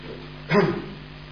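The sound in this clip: A single short dog bark rings out once, mid-pitched and fairly loud, standing alone over a faint steady hum.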